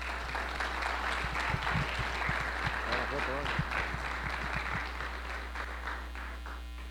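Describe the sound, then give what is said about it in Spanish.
Audience applause at a distilled spirits congress: many hands clapping in a steady patter under a talking voice, with a low electrical hum running throughout and the clapping tapering off toward the end. “Y muy agradecido por su presencia y esos aplausos también.”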